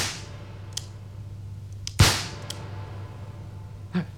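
A single sharp pistol crack rings out in a duel, a loud burst that quickly decays. A few faint ticks come before and after it over a steady low hum.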